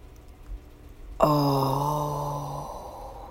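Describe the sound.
A person releases a deep breath as a long voiced sigh, a steady humming exhale that sinks slightly in pitch and fades over about a second and a half, after a quiet lead-in.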